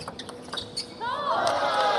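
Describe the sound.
Table tennis ball bouncing on the table during a serve in a match: a few light, sharp taps, then a rising wash of voices.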